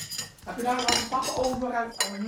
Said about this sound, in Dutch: Nou, doe maar lekker een stukje afsnijden.